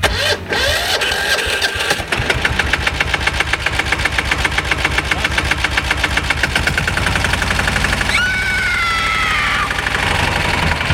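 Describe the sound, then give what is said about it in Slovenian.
Small cultivator engine sputtering at first, then settling into a loud, steady, rapid chugging rhythm, heard alone. “Kaj pa je to? Ja, kultivator.”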